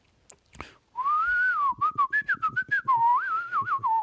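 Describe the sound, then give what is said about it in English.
A person whistles for an origami crane calling its friends in a story: a wavering, bird-like tune of fast trills and warbling pitch, steady and loud after a few faint clicks at the start. “the origami crane whistled to all of its friends”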